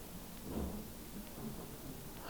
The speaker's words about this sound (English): But I thought the weatherman said, why is it raining?